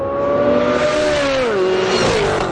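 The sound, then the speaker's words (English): Race car engines roar during a high-speed racing demonstration at the General Motors Proving Grounds in Milford, Michigan: a loud, steady whine whose pitch drops partway through. “President Trump took in high-speed racing demonstrations”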